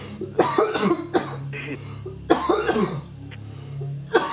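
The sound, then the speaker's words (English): A person coughs after smoking: harsh, rough coughs come in a few separate bursts, some as quick doubled hacks, with short raspy breaths in the gaps between them. “I got a cough now.”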